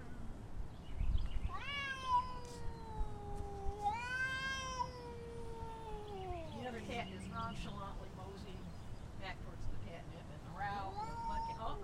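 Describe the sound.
A cat growls and yowls during a standoff with another cat a few feet away. Several long, drawn-out, wavering cries come through faintly, and one of them slides down in pitch midway.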